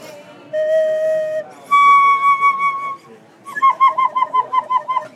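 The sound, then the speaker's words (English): A handcrafted bamboo dragon whistle, the top section of a bamboo flute, plays two sustained pure whistled notes, the second higher, then a quick fluttering trill of wavering, bird-like warbles. “The dragon whistles the top section of a flute, and it sounds like this.”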